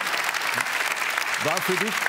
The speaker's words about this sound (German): Den Applaus nehmen wir natürlich gerne mit.